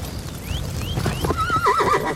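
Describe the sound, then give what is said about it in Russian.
A startled horse whinnies on the steppe: one high, quavering whinny near the end over a low rumbling background, with soft hoof clops. “Лошади вздрагивают.”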